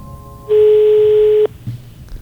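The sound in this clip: Telephone ringback on a call that goes unanswered: one steady mid-pitched tone lasting about a second, standing alone over a faint background hiss.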